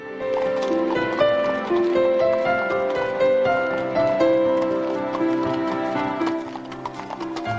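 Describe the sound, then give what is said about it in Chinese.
Hooves of a horse pulling a carriage as it sets off, a steady rhythmic clip-clop of sharp knocks that continues throughout, over a light melodic line. “小银币就静静地躺在钱包里，坐着马车出发了。”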